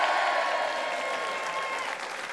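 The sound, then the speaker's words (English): A live studio audience applauds with dense, continuous clapping, loud and even, easing slightly toward the end. “this episode is actually being recorded in front of a live studio audience.”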